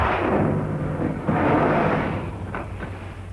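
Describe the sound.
Torpedo fired from a submarine: a loud, broad rushing roar with a sudden thump partway through, then gradually weakening toward the end.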